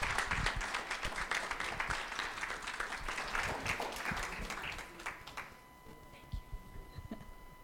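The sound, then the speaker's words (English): An audience at a church service applauds to welcome two guests. The clapping is faint but dense, then thins to a few scattered claps toward the end. “would you put your hands together and welcome Larry and Gene as they come?”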